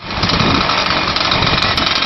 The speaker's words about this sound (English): The engines roar to life